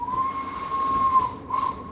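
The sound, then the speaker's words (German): A steam locomotive's whistle and hiss as it comes to a stop: a sustained, steady high whistle tone over airy hiss, breaking off briefly before a short second blast. “Die Lok kommt zum Stehen und du wirst gefeuert.”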